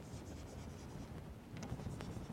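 Faint scratching strokes on a board as a function graph is drawn during a maths lecture, a run of soft scraping marks with a few sharper strokes near the end, and no talking.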